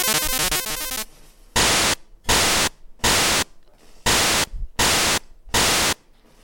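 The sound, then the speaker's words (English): Harsh white-noise bursts from a Game Boy sound generator's noise channel: six loud, evenly spaced static blasts with short gaps. They follow about a second of buzzy chiptune tones. “And there's of course a noise channel, which you might have known from like the way that you would make like rhythms and percussions. Or noise, sound effects.”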